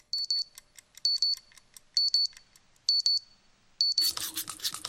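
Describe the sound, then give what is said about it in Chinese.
An alarm clock ringing in five short bursts of rapid, high-pitched beeps about a second apart. The ringing then stops and a louder, harsh rustling noise takes over. “闹钟响起”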